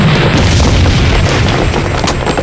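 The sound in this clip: A time bomb exploding outside a hall: a loud, sustained, booming rumble with dense crackling noise that fills the whole clip without letting up. No voices are heard.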